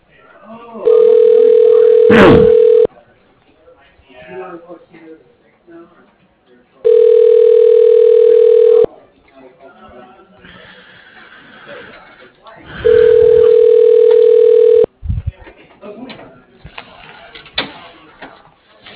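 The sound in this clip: A telephone ringback tone sounds three times while a call is transferred. Each ring is a steady buzzing tone about two seconds long, separated by pauses of a few seconds filled with faint background noise.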